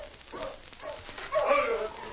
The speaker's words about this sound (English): Hey, there's somebody coming in with a dog team.